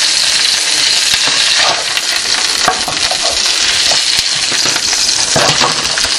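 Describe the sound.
Rice fries in a skillet with a loud, steady sizzle that holds throughout, broken by scattered light scrapes and clinks as it is stirred.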